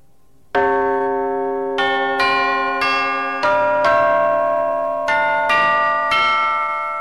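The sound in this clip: Ringing metallic chimes from a sampled chimes-and-gong sound set: nine struck tones at differing pitches, each with a long sustain that overlaps the next, steady and fairly loud.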